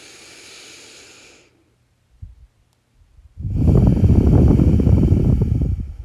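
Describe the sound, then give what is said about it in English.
A single long, loud deep breath taken during a guided self-care exercise, a broad whooshing rush lasting a few seconds. A faint hiss and a brief quiet gap come before it. “So, take a deep breath with me.”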